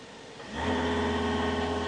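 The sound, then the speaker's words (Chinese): A car engine starts up in park with the seatbelt fastened and the accelerator pressed firmly, kicking in after about half a second and settling into a steady, even hum with a low drone and no talk. “你要绑安全带，挂了 P 档，你重脚油门，等一下，你就会听到 engine 的声音，它的声音就是这样子。”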